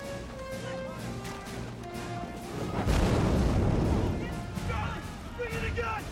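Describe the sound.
A makeshift howitzer fires in a film scene, giving one heavy, broad boom midway through with a rumbling tail, set against a sustained tonal music score.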